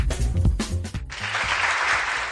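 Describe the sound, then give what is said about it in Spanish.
Applause fills the second half: a dense, even patter of clapping that holds steady to the end, after a short, louder low-pitched stretch of other sound. “Y este aplauso se lo vamos a dar a la gente que todavía existe honrada.”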